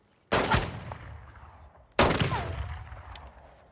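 Two pistol shots fired at a row of oranges sitting on a log, each a sharp, loud crack followed by a ringing decay, the second coming about 1.7 seconds after the first.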